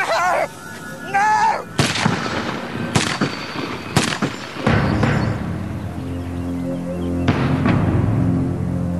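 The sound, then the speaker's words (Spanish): Gunfire in a dramatized scene of a madman showering a group with bullets: several loud, sharp bangs at irregular spacing, each cutting through a lower sustained drone, with a strained voice audible at the very start. “Rápidamente el loco se abalanza sobre ellos y les dispara con una lluvia de balas.”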